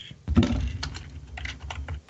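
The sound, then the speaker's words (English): Fingers type on a computer keyboard in a rapid, irregular run of many light clicks and taps, with no voices. “Let me type his name for you.”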